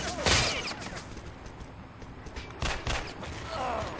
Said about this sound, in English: Pee-wee's able to toss a grenade down there, taking out the flag carrier of fear